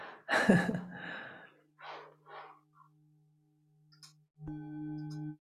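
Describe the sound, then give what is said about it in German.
Breathing in and out in a guided breathing exercise: one loud, sharp inhale followed by a couple of softer airy exhales, with a low sustained tone underneath and another tonal sound starting near the end. “Einatmen. Ausatmen.”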